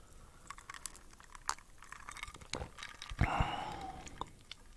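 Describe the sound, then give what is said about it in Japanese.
A tasting sip of an unusual-flavoured drink: quiet clicks and small mouth noises, then one brief, louder slurp past the midpoint, followed by a few faint ticks. “ちょっと飲んでみますね”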